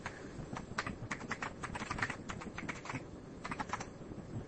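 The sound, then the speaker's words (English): Rapid typing of a password on a computer keyboard at a login prompt: many quick, crisp keystroke clicks in an uneven but steady run, with no voices. “Oh, I think I typed the wrong password here.”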